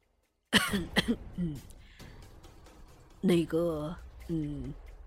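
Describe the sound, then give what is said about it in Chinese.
A light cough from a master who has just come out of shock amid a chaotic scene: a couple of short, soft bursts, followed by voiced vocal sounds. “终是轻轻咳嗽了一声”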